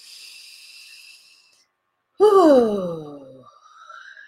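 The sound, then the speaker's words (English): Deep breath in and out: a soft, hissing inhale, a brief silent pause, then a loud voiced exhale like a sigh that falls in pitch and trails off. “Take a deep breath.”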